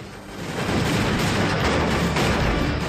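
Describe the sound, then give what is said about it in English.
Gunfire as six men draw their guns and open fire, a loud, dense barrage of overlapping shots that blur into a continuous roar with no clear gaps. “The six men draw their guns and open fire.”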